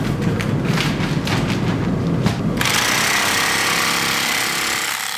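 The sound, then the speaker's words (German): A Bernina industrial sewing machine stitches shut a 25 kg flour sack for bread: loud, rapid mechanical rattling and thumping, then a shift to a steadier, hissing whir partway through. “Für das Jura-Parkbrot werden vor allem 25 kg Säcke gebraucht. Im Gegensatz zu den kleineren Säcken werden die nicht von Hand verschlossen. Dafür kommt dort eine ganz spezielle Maschine in Einsatz. Industrie Bernina, sagen wir der fast.”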